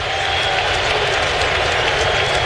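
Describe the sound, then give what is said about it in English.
A baseball crowd at Yankee Stadium roars as the pitcher looks for strike three. The loud, dense wall of crowd noise holds steady throughout, with no distinct voices standing out. “Wall of sound building here at Yankee Stadium, looking for strike three.”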